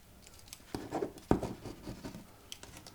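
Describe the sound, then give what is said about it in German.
A ballpoint pen scratches across paper as a parcel delivery is signed for, making a few short, dry scratchy strokes of moderate loudness. “Dann bitte hier unterschreiben. Oh, Kuli.”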